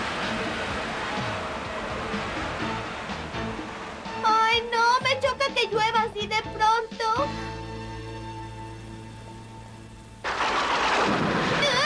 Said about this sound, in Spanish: Trueno que resuena, rayo que deslumbra. Arroja ya la tormenta sobre la ciudad.